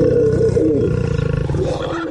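A lion snarls and roars in one loud, deep, continuous growl that turns into a rough, rapidly pulsing rasp toward the end.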